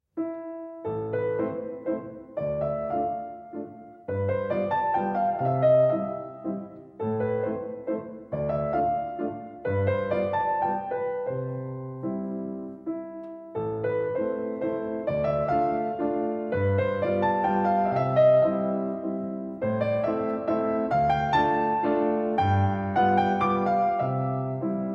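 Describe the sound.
A solo piano plays a waltz in A minor. A lilting melody rides over low chords at a moderate, even volume, with short pauses between phrases.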